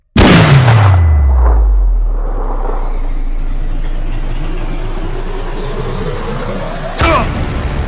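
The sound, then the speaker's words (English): A rifle shot fired at a target: a sharp, loud crack at the start that drops into a long, low rumbling decay, followed near the end by a second, weaker sharp impact. “take that shot. I can do this. 5, 4. Send it.”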